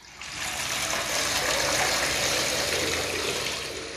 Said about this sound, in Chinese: 有人呢赶忙着拿着桶子装满了水浇在祭坛上。